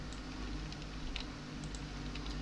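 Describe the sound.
Typing on a computer keyboard, heard as faint, scattered soft clicks over a steady low hum and hiss.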